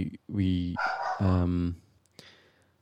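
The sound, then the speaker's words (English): Loud dog barking: two deep, drawn-out barks in quick succession, followed by a brief sharp click and then near quiet. “Damn, that dog is loud, man.”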